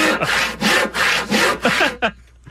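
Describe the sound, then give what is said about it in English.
A saw cuts wood in a few rapid back-and-forth strokes, each a loud rasping burst with brief gaps between, ending in a short final stroke and quiet. “Sounds like a saw. It is a saw.”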